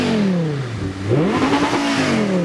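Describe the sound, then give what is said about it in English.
A car engine revs up to its rev limiter at 7,000 rpm. The loud, steady engine tone dips briefly, then climbs sharply and holds at a high, slightly fluttering pitch, with no talk. “Yeah, the rev limiter is kicking in at 7,000 as it sits.”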